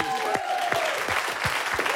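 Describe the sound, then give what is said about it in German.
Studio audience applause during a radio show, a steady wash of many hands clapping while a voice speaks over it. “Großen Applaus.”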